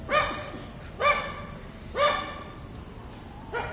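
A dog barks four times at a steady rhythm, roughly once per second. The barks are short, mid-pitched and moderately loud over a faint background.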